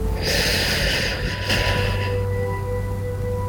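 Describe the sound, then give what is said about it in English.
A deep inhale during a guided breathing exercise: one long, breathy draw of air lasting about two seconds, steady and fairly loud over a constant low hum. “Now we can start doing some deep breathing. Focus on your breath and channel it to your stomach with a 4 count inhale,”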